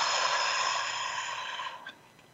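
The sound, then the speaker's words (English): A deep belly breath drawn in: a steady, airy rush of air lasting nearly two seconds before tapering off softly, with no talk over it. “So let's breathe that in deeply. Big belly breath.”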